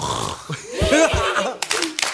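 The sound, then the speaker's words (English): Voices in a children's singing game imitate snoring and giggle together, followed by a few sharp hand claps near the end. “Let everyone snore, giggle, and clap.”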